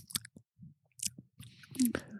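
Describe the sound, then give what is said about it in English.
Crunchy chewing of a barbecue-seasoned edible worm, heard as a quick run of short, irregular crisp bites and mouth clicks, faint at first and denser toward the end. “Still, though, just knowing that I'm eating a worm.”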